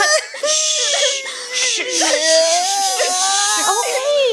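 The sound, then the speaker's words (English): A child whining and crying on Christmas Eve: a loud, continuous high wail that wavers and slides in pitch, broken by sobbing catches throughout. “Stop whining!”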